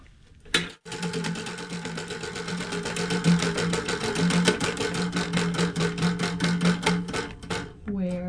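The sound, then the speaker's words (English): A prize wheel spinning backwards, its pointer rattling off the pegs in a rapid, even stream of clicks that runs for several seconds before stopping near the end. “Oh, it's spinning backwards. Okay. The wheel has her own mind.”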